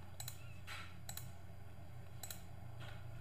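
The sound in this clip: Computer mouse clicks while selecting the conjugate option for a French verb, a few sharp dry ticks spaced irregularly over a steady low hum.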